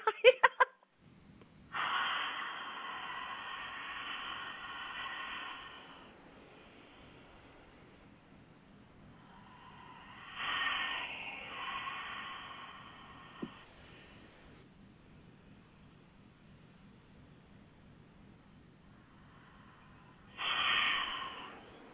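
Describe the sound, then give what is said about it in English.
Slow, deep breaths, three drawn-out airy exhales spaced several seconds apart, each rising and fading gently over quiet background hiss, with a single small click between the second and third. “It just takes me a couple of breaths”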